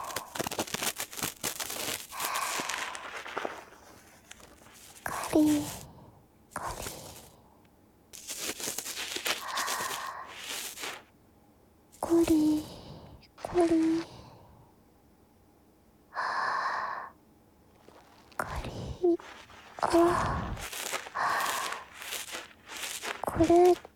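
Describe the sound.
Fingers fold over the rim of an ear, giving close, crisp rustling and crinkling bursts that come in many short clusters separated by quiet pauses, mixed with soft breathy sounds.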